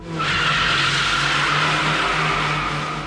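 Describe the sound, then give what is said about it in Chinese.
Tires squeal as a car drifts through a mountain bend, a loud, continuous high screech held for about three seconds over a low engine drone. “可以话系彻底了解秋明山，而写出一个完美得令人气愤嘅超级漂移啊！”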